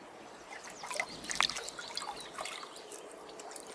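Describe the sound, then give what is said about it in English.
Water trickles and drips softly as someone washes their face, with faint splashes and scattered droplets over a quiet background. “But what if I shut my eyes and then wash my face in the water?”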